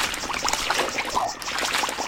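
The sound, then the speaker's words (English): Rushing water from a waterfall in a video game, a steady splashing hiss that runs unbroken through the short clip without any voices. “So I'm gonna walk forward a bit and we should find our waterfall. There it is.”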